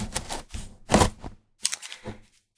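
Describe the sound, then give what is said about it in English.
Blade slicing open a cardboard box: several short, rasping scrapes separated by brief pauses, each stroke a dry tearing burst. “Let me cut open this box here.”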